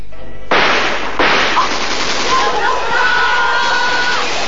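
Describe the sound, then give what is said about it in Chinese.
Machine gun fire in a battle scene of a staged Henan opera, a dense roar of rapid shots that starts abruptly, surges again with a second sharp attack, and continues loud and unbroken to the end. “三爷，攻击机枪把威虎营给封住了！”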